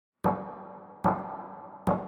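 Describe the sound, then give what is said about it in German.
Three sharp knocks land at an even, unhurried pace, each with a short ringing decay before the next; nobody speaks. “dann klopf jetzt 3-mal.”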